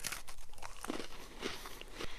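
Crunchy bites into a Hydrox chocolate sandwich cookie, with a few sharp, quiet crunches spread over moments of chewing and no talking.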